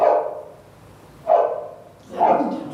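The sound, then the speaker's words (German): A dog barks three times, each bark a loud, mid-pitched burst, spaced roughly a second apart with quiet gaps between them. “Das ist ein Hund.”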